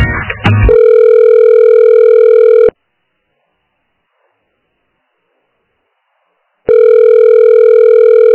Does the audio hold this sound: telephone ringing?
yes